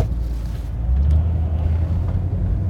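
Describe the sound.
A car drives along Route 83, giving a steady, loud low rumble of engine and road noise with a windy hiss layered over it.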